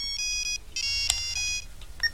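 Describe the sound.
An electronic telephone ringtone plays a repeating pattern of bright, high beeping tones. It is fairly faint, over a low rumbling background, with no voices.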